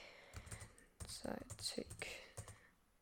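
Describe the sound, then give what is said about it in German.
Typing on a computer keyboard, faint irregular bursts of key clicks in quick clusters separated by short pauses. “Ich muss ganz kurz was schreiben.”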